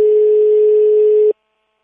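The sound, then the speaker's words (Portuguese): A telephone dial tone on an outgoing call: one steady, continuous mid-pitched tone, loud and alone, lasting just over a second before it cuts off abruptly into silence. “vem aí o Daniel Ferreira com um telefonema das finanças e um imposto para pagar”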